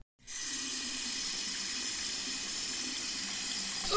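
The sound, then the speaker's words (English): Water runs from a faucet in a steady, even hiss that starts abruptly after a brief silence and continues unbroken to the end. “Oh, the water in this faucet is too dry.”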